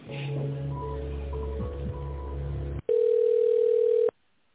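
A steady single-pitch telephone tone sounds as a call is transferred to an answering machine. It holds evenly for just over a second, follows a denser humming stretch on the line, and then cuts off into silence.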